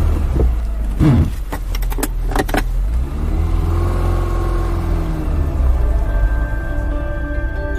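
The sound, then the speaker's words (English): A car drives away: a few knocks and clunks come at first over a low engine rumble, then the engine note swells and eases as the car moves off, steady and fairly loud with no voices. “Once they'd driven to Solna police station”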